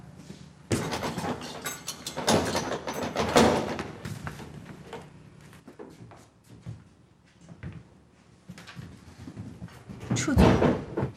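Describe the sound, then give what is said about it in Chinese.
A door being opened, heard as a few scattered knocks and bumps of moderate, uneven loudness, with a final louder clatter near the end. “把门打开。”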